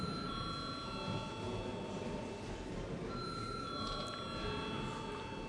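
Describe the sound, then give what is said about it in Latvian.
A bell rung in a parliament chamber before a vote sounds as a faint, steady ringing over low room hum, in two stretches with a short break between them. “Paldies, lūdzu zvanu.”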